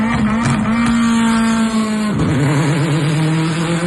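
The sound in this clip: Rallycross race car engine revving loud with a steady, high buzzing tone. Its pitch drops sharply about halfway through, then settles into a warbling, fluctuating growl.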